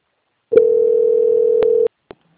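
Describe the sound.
A telephone tone sounds while a bank phone call is being transferred: a single steady, mid-pitched tone lasting just over a second, with clicks as it begins and ends and another brief click shortly after.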